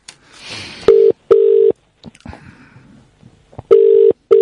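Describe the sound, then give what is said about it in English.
A telephone being dialled: a few steady electronic beeps, separated by soft clicks and handling noise. “Right. Let me dial that again.”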